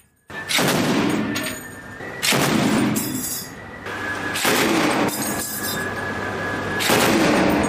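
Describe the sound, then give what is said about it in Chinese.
Heavy machine gun firing warning shots at a suspicious small boat during a naval counter-piracy drill at sea, several loud sustained bursts of rapid fire separated by short pauses, with ringing metallic echoes between the volleys. “舱面火力组使用重机枪对可疑小艇进行警告射击。”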